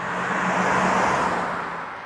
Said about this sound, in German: Das ist ein Diesel, ne? Den sehen wir. Dann fahren wir mit dem geliehenen A8 an der Messstelle vorbei. Mehrmals.